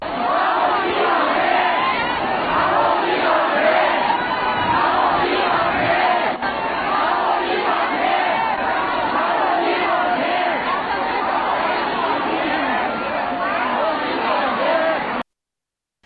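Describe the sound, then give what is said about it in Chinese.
An angry crowd of elderly protesters outside Zhongshan Park in Wuhan shouts slogans demanding their medical insurance money: many raised voices chant and yell together, loud and continuous, with a brief dip partway through. “那么愤怒的人群啊，都在高喊说还我医保钱。我们来听一下现场的声音。”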